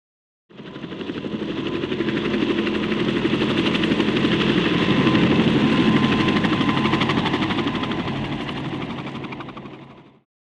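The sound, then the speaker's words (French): A helicopter in a frozen scene on a northern European island gives off a continuous rapid rotor chop with a droning engine, swelling toward the middle and fading away near the end, with no voices. “I can hear a helicopter. J'entends un hélicoptère.”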